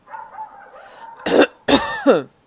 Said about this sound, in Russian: Хозяин кашлянул, чтобы придать голосу больше твердости.